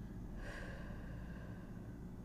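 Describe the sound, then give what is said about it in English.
One deep breath drawn in during a meditation exercise, a short soft rush of air near the start that fades into near silence. “And now we're going to breathe again. And release.”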